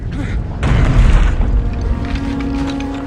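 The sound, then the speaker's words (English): A stone floor around a compass on a round plinth drops and splits down the middle: a loud, deep boom with rumbling and cracking that swells after a brief quieter lead-in, then slowly fades into a lower, lingering rumble. “The floor around the compass drops and splits down the middle of the plinth.”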